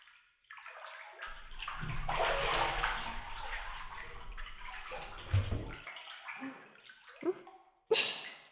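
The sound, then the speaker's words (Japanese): Bathtub water splashes and pours steadily while someone seated on the tub's edge has their back washed, with a few sharper splashes near the end. “じゃあ、背中を洗うね。お風呂の縁に座ってもらえるかな。”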